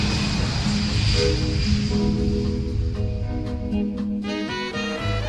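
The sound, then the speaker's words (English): An airplane taking off under a grey sky: a dense, steady roar of engine noise with a droning tonal hum on top, loud throughout and without voices. “A plane takes off against a grey sky.”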